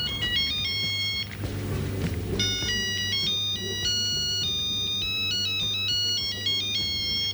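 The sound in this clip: Electronic ringtone from a telephone signalling an incoming call: a bright, melodic pattern of stepping tones that repeats steadily and loudly across the whole clip, with a brief burst of noise early on and no talking.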